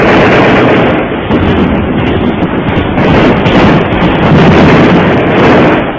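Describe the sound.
Gunfire sound effects in a radio drama form a loud, dense, continuous roar of blasts and rumbling noise that fills the whole stretch without a break.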